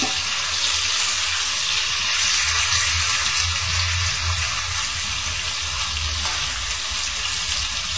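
Tofu frying in a pan over a low flame until golden gives a steady, dense sizzle that holds evenly throughout with no talking.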